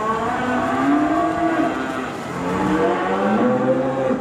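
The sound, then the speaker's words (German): Cattle low in a new open barn on a Virginia farm, a herd with calves; overlapping, drawn-out moos fill the whole stretch at a steady, fairly loud level with no talk. “Den ganzen Vormittag über hat sich die Landwirtin um die Kälber gekümmert und um die Herde von”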